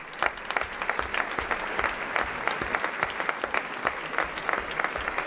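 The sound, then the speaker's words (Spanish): Applause for the actors after a dramatized performance of a tale about two sisters, sorcerers in a tavern: dense, steady clapping from an audience, evenly sustained from start to end with no talk. “Y el aplauso para nuestros actores.”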